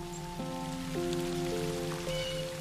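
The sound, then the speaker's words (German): Soft patter of raindrops as rain begins to fall in an autumn forest, a gentle, steady hiss of drops heard beneath sustained tones. “Regentropfen. Es fängt an zu regnen.”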